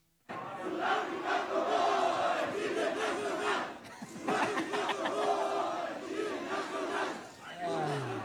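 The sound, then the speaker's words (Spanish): A football crowd at Estadio Ciudad de México chants after the match. Loud massed voices repeat a rhythmic chant in two long phrases separated by a brief dip. “Esto se escuchó en el Estadio Ciudad de México, posterior al encuentro.”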